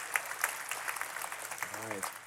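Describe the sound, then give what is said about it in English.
Congregation applauding the church staff during a Sunday service, with steady, even clapping throughout and a voice briefly heard over it near the end. “All of our staff that are here, would you stand? Okay, let's give them a hand.”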